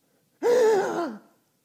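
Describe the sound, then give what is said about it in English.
A voice imitates a theatrical gasp from the climax of a play. It is a single voiced intake lasting about a second, its tone wavering before it dips and fades, heard alone against silence. “And the whole thing crescendos. And she lets out this gasp.”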